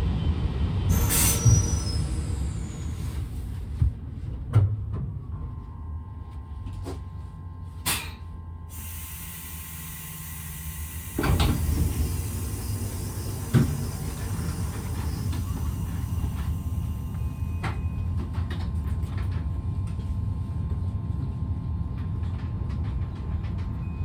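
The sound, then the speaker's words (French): Regional TER train departing from Saint-Marcellin station on track B, with a low rolling rumble, a few sharp clicks and thumps, and thin, high wheel squeals drawn out over the long, steady pass. “Gare de Saint-Marcellin, voie B. Le TER 855111 s'apprête à partir.”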